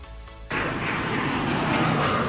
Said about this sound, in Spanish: antes aterrizamos en el aeropuerto del Prat.